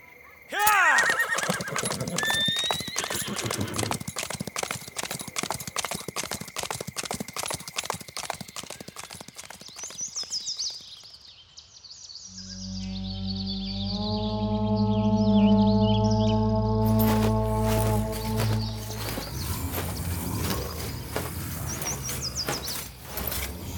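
Horses galloping on a road: a rapid clatter of hoofbeats, then a long, loud whinny, after which the hooves pound on again.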